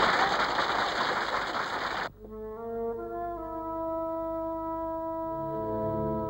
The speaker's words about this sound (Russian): Все, кроме Пестелея, хлопают.